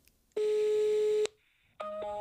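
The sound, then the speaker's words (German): A telephone ringing tone heard while a call is placed: a steady, fairly loud beep held for nearly a second, then a pause and the start of another tone at a different pitch. “Es klingelt, es klingelt. Es klingelt. Oh, es klingelt.”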